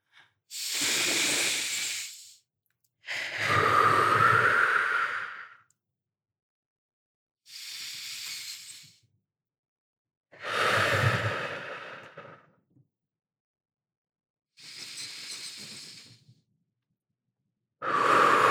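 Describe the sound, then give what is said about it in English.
Deep cleansing breaths taken by a group together, drawn down to the diaphragm: six long, loud, airy inhales and exhales separated by short pauses, the last one cut off, with no talking. “So how about we take three deep breaths all together? All together. Cleansing breaths all the way down to your diaphragm.”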